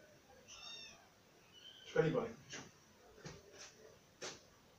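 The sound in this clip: A cat meows briefly near the start: a faint, thin cry with a clear tonal quality. A few short, louder bursts follow at intervals.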